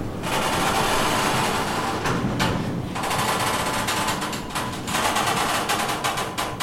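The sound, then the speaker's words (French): A sliding art storage rack is pulled along its rail, giving a loud, continuous metallic rattle and rumble with a couple of brief dips where the motion eases before it rolls on. “Alors là, vous venez de tirer un rail.”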